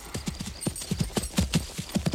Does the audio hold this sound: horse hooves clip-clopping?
yes

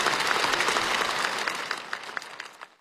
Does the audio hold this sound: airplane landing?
no

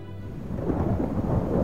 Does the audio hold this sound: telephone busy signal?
no

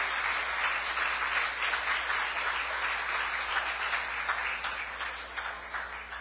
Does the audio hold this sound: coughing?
no

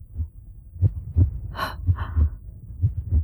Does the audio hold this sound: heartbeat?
yes

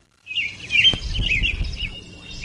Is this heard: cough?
no

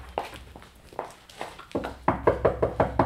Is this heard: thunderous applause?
no

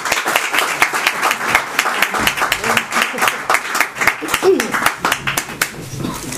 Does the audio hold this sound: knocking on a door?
no

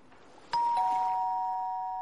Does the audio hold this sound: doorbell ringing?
yes

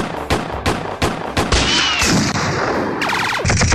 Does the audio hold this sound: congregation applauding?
no

